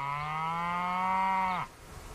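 A cow on a ranch in Washington gives a single long, low moo. The call holds a steady, harmonic tone for about a second and a half, then drops off sharply into quiet.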